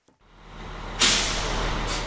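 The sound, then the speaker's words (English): A fire truck rolling into a fire station after returning from a call. Its engine noise builds steadily, then a loud air-brake hiss bursts out, and a second hiss follows at the very end. “A fire truck rolls into station 83 after responding to a call.”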